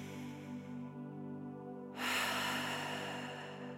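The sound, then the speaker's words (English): A single deep breath drawn in during a guided calming exercise: a soft, broad, airy inhale that begins about halfway through and holds steady to the end, over a quiet, steady tonal background. “We're going to take a deep breath in.”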